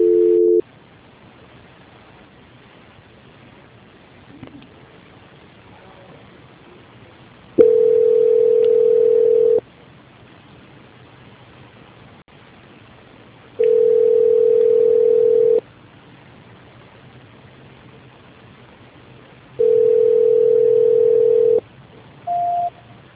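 A telephone tone plays during a call transfer. Three long, steady mid-pitched tones of about two seconds each are separated by silence. There is a brief tone at the very start and a short, higher beep at the end. No one speaks.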